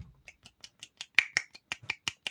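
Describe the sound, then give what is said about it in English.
Sharp slapping claps of one hand, the fingers smacking against the palm, repeated about a dozen times in a quick, fairly steady rhythm, with no voices. “Do you hear that noise? One hand clapping. That's the sound of one hand clapping.”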